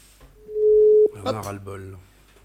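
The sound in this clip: An outgoing telephone call gives one steady, mid-pitched ring tone lasting under a second, and a voice begins talking right after it.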